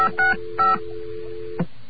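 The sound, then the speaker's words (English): Touch-tone dialing on a landline whose touch-tone service has been shut off: two short dual-tone key beeps sound over a steady dial tone that continues unbroken, followed later by a faint click. “This is what it's like when the phone company turns off touch tone service. You hit a tone, but your dial tone doesn't go away.”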